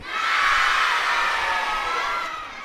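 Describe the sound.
A crowd of children shouts "no" together on cue from a host at a live show, one loud, sustained burst of many voices that tapers off toward the end.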